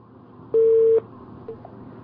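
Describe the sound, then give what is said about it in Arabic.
A telephone line gives a single steady electronic beep of about half a second after a dropped call, followed by a faint, very short blip over a quiet background. “الحقيقة اتصال اتقطع، هنعود اتصال بيها كمان مرة أو تعود اتصال بينا كمان مرة.”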